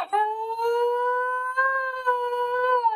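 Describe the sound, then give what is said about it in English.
A German Shepherd dog howls in one long, sustained, steady-pitched tone with rich harmonics that carries through the whole clip, wavering only slightly. “Was that a yawn and a howl?”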